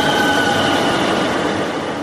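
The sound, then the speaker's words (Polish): A 1990s express train pulls into a station platform with a steady, loud rumble and broad rushing noise that holds at an even level throughout, with no voices. “Pociąg ekspresowy z lat 90. wjedzie na tor przy peronie Radia Parada.”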